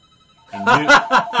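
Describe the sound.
A telephone rings on a call-in line that was left unmuted: a few rhythmic, harmonic ringing pulses begin after half a second of near-silence and stay loud to the end.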